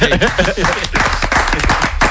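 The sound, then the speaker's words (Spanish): Hand clapping in a studio, with rapid, loud repeated claps running through the whole stretch and a voice mixed in near the start. “De repente se pone a aplaudir.”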